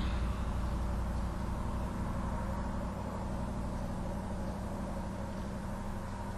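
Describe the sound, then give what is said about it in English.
A car engine rumbles low and steady, faint and continuous throughout, with no voices. “Sound of a car.”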